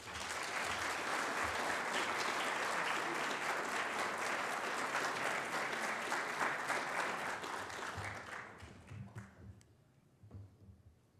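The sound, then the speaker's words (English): Audience applause welcomes a speaker at a public lecture on wildfires in Victoria. The dense, steady clapping holds strong for several seconds, then thins to scattered claps as it dies away. “Ladies and gentlemen, please give Professor Lori Daniels a warm welcome.”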